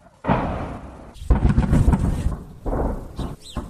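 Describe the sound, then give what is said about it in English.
Heavy blasts from attacks on targets in the Belgorod region, on Russia's border with Ukraine, come as a few loud, broad rumbling bursts separated by short gaps. “The blasts were from what appear to be attacks on targets in the region.”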